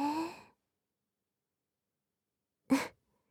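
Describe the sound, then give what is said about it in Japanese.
Two short, breathy voiced sighs of guided breathing, separated by about two seconds of silence; the first is longer and softer, the second a brief, stronger burst. “吸って、吐いて。”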